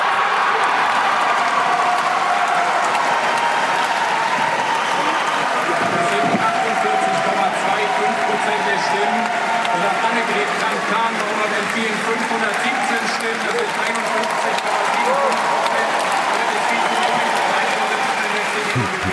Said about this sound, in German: da hört man eigentlich ganz gut, dass tatsächlich die Delegierten in der Halle, da lag keine Spaltung oder so in der Luft, was ja eigentlich befürchtet wurde, sondern da wurde sich richtig gefreut.